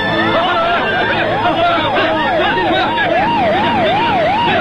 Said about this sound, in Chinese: 有很多警车